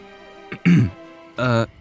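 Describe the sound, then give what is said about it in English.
A person clears their throat in two distinct rasping bursts, the first gravelly and broken, the second a longer voiced rumble, with near quiet before and between them. “I cleared my throat, unsure what you were meant to say to a dream to make it go away.”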